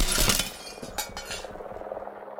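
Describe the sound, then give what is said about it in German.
Glass shatters and wood cracks as the top of a ladder rams through a window and smashes its frame: a sharp burst of breaking glass, then scattered tinkling and clinking debris, moderately quiet. “Die Spitze einer Leiter war durchs Fenster gerammt worden und hatte den Rahmen zertrümmert.”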